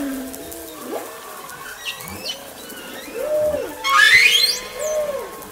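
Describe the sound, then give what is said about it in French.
Whale song from a whale off Madagascar: a series of moaning tonal calls and bending whoops, then a sharp rising whistle-like upsweep, moderately loud and with no talk. “Écoutez bien, voici le chant d'une baleine malgache.”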